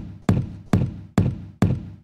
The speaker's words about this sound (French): Pour faire ce morceau, le gars, il a enregistré une porte et rien d'autre.